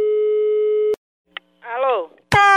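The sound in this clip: A steady telephone tone sounds, then cuts off with a click. After a short pause comes a faint tick and a brief voice, and then the tone returns, loud and sharp.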